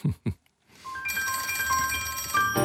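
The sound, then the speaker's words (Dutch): Telephone ringing as an outgoing call is placed, a steady electronic trill with bright, ringing overtones that runs continuously for about two seconds after two brief, low bursts at the start. “Ik ga bellen met macro-econoom Edin Mucacic.”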